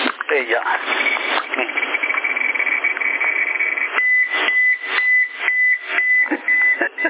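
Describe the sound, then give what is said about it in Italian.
A radiation-measuring device's alarm beeps like a reversing truck over a noisy, band-limited CB radio link. A steady high-pitched tone starts partway through and repeats as several short, evenly spaced beeps over the hiss. “quando vai in allarme sembrano il camion a Mondetta quando fa retromarcia”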